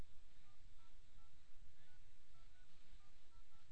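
Telephone keypad dialing tones beep in a quick series of short, evenly spaced electronic notes. The tones are faint and sit under a steady hiss of line noise.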